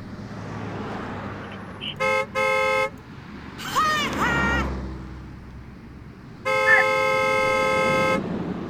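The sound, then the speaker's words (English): Car horn honking near an Audi doing donuts by a drive-thru book drop: two short blasts close together, then one long steady blast, over rumbling road noise. “Are you doing donuts in an Audi? Keep honking!”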